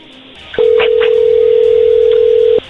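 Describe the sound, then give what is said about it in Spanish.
A telephone line tone as a call is dialed: one steady, unbroken electronic tone at a single pitch that holds for about two seconds and then cuts off. It sounds fairly loud and alone, with no voices over it. “está marcando.”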